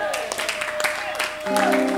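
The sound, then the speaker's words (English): Congregation clapping at a prayer service: scattered, uneven hand claps under a loud speaking voice, with a sustained tone entering near the end. “All those who are clapping, may God bless you.”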